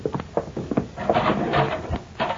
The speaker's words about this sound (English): Now, there's the cell block door. Get going.